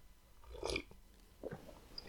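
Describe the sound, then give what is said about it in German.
A faint sip of tea, a soft slurping draw followed by a quieter swallow, with no talking. “Und habe gerade einen Schluck genommen von meinem Tee”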